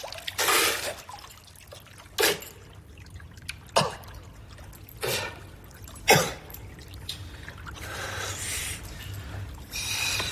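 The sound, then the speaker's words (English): Pool water scooped by hand, then dripping: several splashy bursts of water separated by quiet gaps, ending in a longer stretch of trickling and dripping. “He scoops water with his hands and sips it, but spits it back out.”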